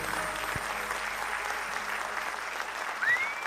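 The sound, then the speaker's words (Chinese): Audience applause at a live show as the host thanks the crowd: dense, steady clapping that holds at an even level throughout, with a brief louder burst near the end. “谢谢， 谢谢， 谢谢，感谢大家好，鼓励掌声哈，我拢收到啊。”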